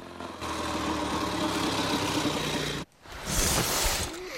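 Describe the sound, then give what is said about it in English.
Motorcycle engine running as a rider pulls into a home driveway in sunshine. It is a steady mid-pitched rumble that cuts out briefly near the end and then resumes. “rides his motorcycle in sunshine, his coattails flapping behind him. He rides into the driveway at home.”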